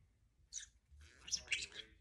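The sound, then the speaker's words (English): A pet bird gives faint high chirps: a short call first, then after a pause a longer run of warbling, twittering notes with a couple of sharper whistled peaks, all quiet. “Who is a pretty bird? Inkeses. Inkeses.”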